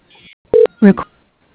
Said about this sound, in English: please use your touch tone phone to enter your application number, followed by the pound sign.